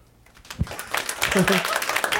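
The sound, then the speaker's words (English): Audience applause at a live show rises after a brief voice, and the clapping grows into a dense, loud wash of many hands mixed with a few voices. “How many people, by round of applause, still utilize DVDs?”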